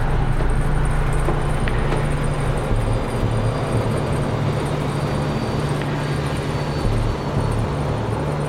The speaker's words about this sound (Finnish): Mittarin mukaan juna kulkee 124 kilometriä tunnissa.